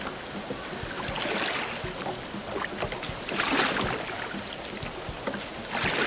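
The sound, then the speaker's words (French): A small boat speeds over choppy, rough water, giving a continuous loud wash of rushing water and spray with repeated slaps and bumps and a few swelling surges as the hull rides the chop. “Ça brasse, ça secoue. Et l'embarcation prend rapidement de la vitesse.”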